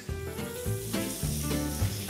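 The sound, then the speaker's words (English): Pork sizzles steadily in a pan as it is spread out with a spatula, a continuous crackling hiss at an even, moderate level with no voices. “Now, once the pork's in, just spread it out slightly with your spatula. But after that, do not stir it, okay?”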